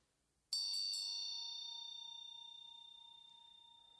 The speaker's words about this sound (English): Each time the bell rings, let yourself have some embodied response